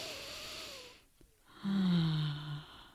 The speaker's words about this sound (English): you make this ah sound as you breathe. So, so deep inhale up.